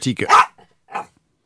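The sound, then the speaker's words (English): A dog lets out a quick cluster of short barks and yips, goes quiet, then gives one more softer bark after a brief pause. “I think that might be what she's getting at. Might just be what she's getting at. I don't know. I can't speak fluent dog, although I'm pretty good.”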